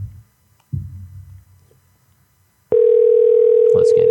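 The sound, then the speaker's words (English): Telephone tone while a number is dialled: after soft, low rustling and a couple of dull thumps, a steady mid-pitched tone cuts in abruptly and holds loud and unbroken to the end. “I'm calling your number.”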